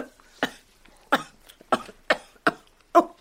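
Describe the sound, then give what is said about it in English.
Someone coughs while choking on a fish bone, letting out six harsh, forceful coughs at fairly even intervals, the last one the loudest. “Oh, a fish bone in my throat.”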